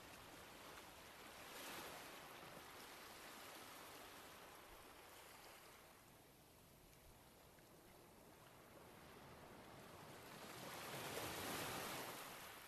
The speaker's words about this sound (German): Das Wasser bricht gegen das Schiff, auf dem du dich gerade befindest.